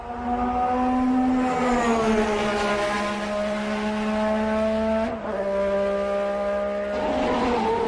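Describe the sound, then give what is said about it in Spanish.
A 1988 McLaren MP4-4 Formula One car engine howls steadily with a strong, buzzy harmonic tone. The pitch eases down, dips briefly near the end, then climbs again as the engine revs. “va a pilotar el McLaren con el que fue campeón en 1988, el McLaren MP4-4. Y suena así, un sonido que va a emocionar a los nostálgicos.”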